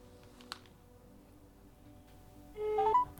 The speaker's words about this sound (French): je vais appeler. Je vais appeler.